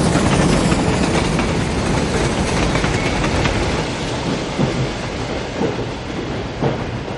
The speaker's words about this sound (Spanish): De noche el tren cruza un puente.